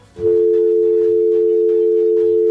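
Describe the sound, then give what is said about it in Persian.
A telephone dial tone sounds after a phone call is cut off: one loud, continuous mid-pitched tone that starts abruptly and holds unchanged for over two seconds. “فکر میکنم که تماس قطع شد”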